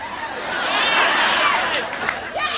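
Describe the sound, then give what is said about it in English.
The studio audience of Oprah's talk show: a continuous crowd murmur of overlapping voices and mild cheering, a broad, busy wash of noise that rises a little midway and holds steady. “Can't hear you over your stupid audience, Oprah.”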